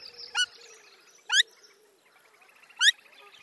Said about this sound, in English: Little grebes have a number of anxiety calls, such as this from an individual at close range.